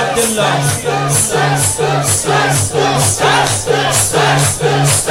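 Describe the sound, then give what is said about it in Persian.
Mourners beat their chests in a Shia religious ceremony for Imam Hussein. The loud, steady slaps come in many evenly spaced beats, and chanting voices carry along under the rhythm. “محکم سینه بزن، این موبایل رو بیاد پایین، باید سینه بزنی دو دست برای عبی عبدالله، صدا سینه زدن بیا”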